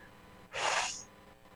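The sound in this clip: One quick, audible intake of breath, a breathy rush lasting about half a second, heard alone against quiet background noise.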